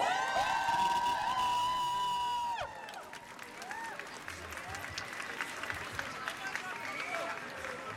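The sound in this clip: Loud cheering and applause from a crowd at a school student strike rally against military conscription; sustained clapping with whoops and shouts, with high whistle-like tones in the first few seconds before they settle into steady crowd noise.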